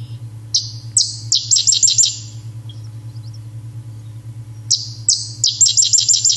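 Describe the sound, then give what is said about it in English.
A sedge wren sings in Rutland County in two song bouts. Each opens with a few sharp, high chip notes and then runs into a dry, rapid chattering trill. A quiet gap separates the bouts, over a steady low hum. “We're going to take a listen to the sedge wren, and Chip's saying it's in Rutland County.”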